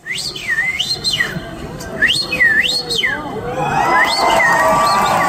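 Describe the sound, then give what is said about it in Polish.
A person imitates bird trills at a birdsong imitation contest, whistling loud, swooping phrases that rise and fall in pitch in quick repeated loops. Crowd noise then swells beneath the last whistles. “My dzisiaj o poranku będziemy sobie też ten poranek umilać śpiewem ptaków. A to w związku z mistrzostwami w ptasim śpiewie, którym wczoraj miałem okazję się przysłuchiwać, a właściwie z mistrzostwami w udawaniu ptasich treli.”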